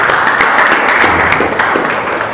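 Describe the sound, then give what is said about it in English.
Loud, dense audience applause for a young 12th-standard student at a question-and-answer session, steady clapping from many people with no pause. “Give an applause.”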